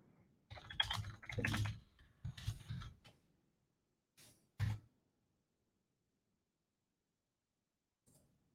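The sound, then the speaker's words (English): Typing on a computer keyboard: faint clusters of quick key clicks in short bursts, a pause, then a few isolated taps. “Did I not type it in right?”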